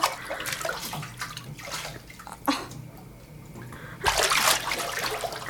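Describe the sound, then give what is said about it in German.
Water splashes in a bathtub as someone bathes and practises diving under the surface. Irregular sloshing bursts come and go, then a louder, sustained surge of splashing follows near the end. “Ich bade! Schon wieder? Du warst doch gestern erst in der Badewanne.”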